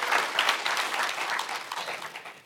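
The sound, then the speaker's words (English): An audience applauds together, a dense wash of clapping hands that holds steady and then slowly thins and fades toward the end. “If you're in the house, would you put your hands together and welcome everybody else just for a second?”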